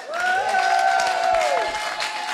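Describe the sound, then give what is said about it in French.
An audience at an open stage evening gives a singing teacher warm applause, a thick, steady clatter of many hands. A drawn-out cheering cry rides over the clapping through the middle before the applause carries on alone. “On peut l'applaudir, s'il vous plaît.”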